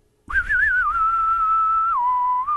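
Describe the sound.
A person whistles a tune imitating a Western film score. A single loud sustained note wavers at first, then holds steady before stepping down to a lower tone near the end, with no talk over it.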